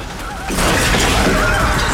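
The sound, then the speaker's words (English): A milkshake glass topples from a table and smashes: a sudden loud shattering crash bursts in about half a second in, then holds as a dense, sustained clatter of breaking glass to the end. “The milkshake topples from the table and smashes.”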